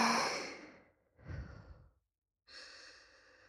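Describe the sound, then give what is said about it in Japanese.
Airy breaths drawn in and let out during a guided breathing exercise: three separate breath sounds, the first a long, strong exhale that fades away, then a shorter breath and a steadier final one, with no talk. “自分のタイミングで吸って、吐いて。”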